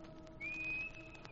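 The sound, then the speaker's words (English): A person whistles a faint, clear signal note, a single sustained tone held for about a second with a slight upward drift, alone over low background hiss. “When I come back, I'll stand in the dock and whistle. Like this.”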